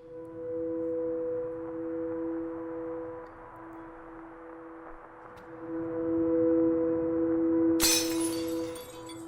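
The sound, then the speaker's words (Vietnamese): Things being smashed with a clattering crash in a quiet small village: a sharp burst of breaking, glassy clatter near the end that cuts through a steady low humming drone. “Trong cái xóm nhỏ yên bình vốn ngày thường tĩnh lặng, tự dưng bỗng vang lên âm thanh đập phá loảng xoảng”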